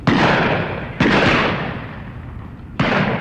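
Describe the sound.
Three shotgun blasts fired at a pheasant shoot, each a sharp, loud report at uneven intervals, the first two spaced closely and each trailing off in a long, rolling decay.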